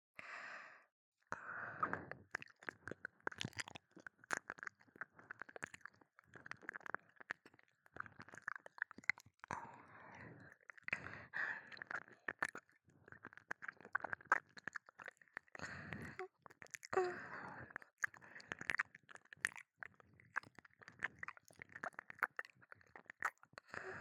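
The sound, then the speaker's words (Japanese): Wet ASMR ear-licking sounds: many soft, squishy licks and mouth smacks close to the ear, quiet and irregular, with occasional breathy sighs. “今度はこちらのお耳をペロペロさせていただきます。”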